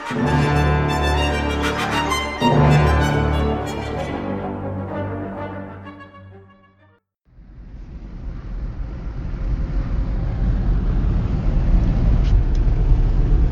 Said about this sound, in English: driving home from the movie theater